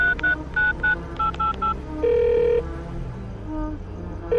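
Telephone number being dialed on a phone inside a car: a quick run of short electronic keypad beeps at varied pitches, then a longer steady tone, with another tone just beginning at the end over a low background hum.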